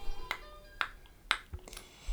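Faint, sharp clicks at an even, regular pace stand in for a one hertz tone, four crisp ticks with softer low thumps between them and no voice.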